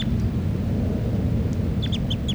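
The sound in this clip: A bird calls in a quick series of short, high chirps toward the end, heard over a steady low rumble.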